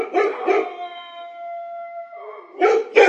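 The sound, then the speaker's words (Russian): Stray dogs in a quarry bark and howl: two sharp barks, then a long, steady, high-pitched howl, and two more barks at the end. “Раздалось с противоположной стороны карьера. Сфокусировав взгляд, я увидел стаю бродячих собак.”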